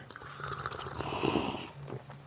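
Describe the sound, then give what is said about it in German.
Tea with frothed milk is slurped in a breathy, hissing sip that swells and fades over about two seconds with no talking. “Jetzt stille, guck mal, wenn wir trinken,”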